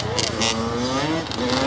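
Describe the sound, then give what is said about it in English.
Dirt bike engines, including a red Honda CR85 and a blue Yamaha YZ125, rev loudly as students twist the throttles, a dense roar with whining tones that climb in pitch and never let up. “Students are twisting throttles, popping wheelies with a knee on the seat, and riding with no hands.”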